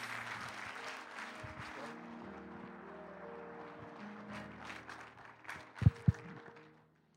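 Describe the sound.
A church audience applauds a guest speaker with soft, steady clapping and faint tonal sounds beneath. Two sharp thumps come near the end as the applause fades out.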